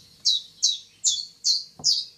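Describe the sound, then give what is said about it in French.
Common chiffchaff song from a migrating bird: five high, bright chirps at a steady, even pace, each short and clear against a quiet background. “c'est un migrateur, il s'appelle le Pouillot Vélos. Vous allez me dire, qu'est-ce que c'est que ce truc? En plus, c'est un petit oiseau, personne ne reconnaît. Mais en anglais, il s'appelle Chief Chaff, et vous allez comprendre pourquoi.”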